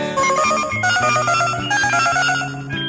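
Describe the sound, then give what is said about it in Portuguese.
A telephone rings for an incoming collect call: bright electronic tones repeat in a steady, stepping pattern, loud and alone with no talking. “Chamada cobrar pra você, você vai ter que atender.”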